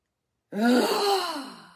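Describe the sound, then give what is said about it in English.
A single deep breath drawn in during a guided relaxation exercise for cold and flu symptoms: after a moment of silence, a full, breathy airflow with a slight voiced tone swells quickly, then gradually fades away. “Big deep breath in.”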